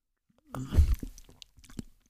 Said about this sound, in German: So, jetzt muss ich erstmal kurz einen Schluck trinken, denn Dezember, da darf man. Ich habe hier einen Glühwein in der Hand und ich probiere ihn einfach mal.